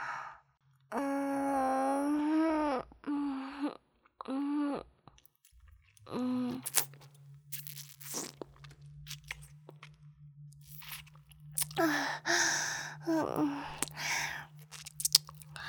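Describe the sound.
Chewing and eating of salty, sticky food: moist smacking and soft crunchy clicks in irregular bursts, mixed with a person's breathy vocal sighs over a steady low hum.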